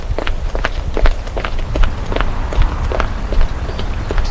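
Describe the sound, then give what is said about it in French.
Running footsteps of a man setting off at a sprint in the street: many quick, evenly spaced steps in a steady, brisk rhythm, fairly loud and continuous throughout. “Vite, il se met à courir.”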